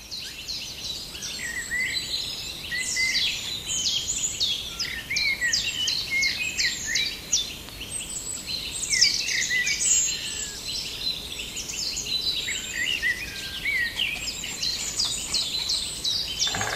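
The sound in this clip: Crows calling as a breeding pair wakes at the nest, a long run of many harsh, repeated calls that overlap and continue steadily at a fairly faint level throughout.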